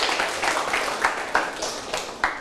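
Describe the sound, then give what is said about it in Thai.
A class of students applauding a fellow student in a classroom lesson: scattered, uneven handclaps with several sharper claps standing out over the soft patter. “เก่งมากเลยครับปรบมือให้เพื่อนหน่อยครับ”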